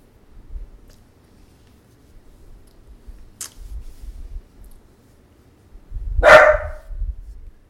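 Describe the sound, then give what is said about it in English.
A dog gives a single loud, sharp bark near the end, preceded by low, rumbling shuffles and a brief faint click. “Well, that's my dog for you guys.”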